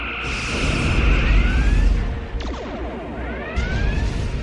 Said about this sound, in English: Schmitty, turn our ship around and show the buggers we still have teeth. Firing all batteries!